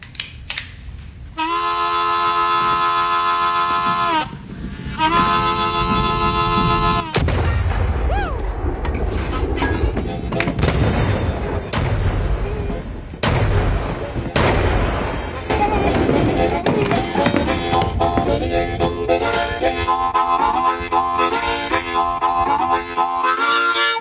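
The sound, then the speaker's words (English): Gunshots in a Bad Lieutenant film scene where men take revenge on a drug dealer: several sharp cracks punch through loud music and dense crashing sound, with voices mixed in. “The guys come to seek revenge on the dealer, and Cage is there. And they shoot the guy, and what happens?”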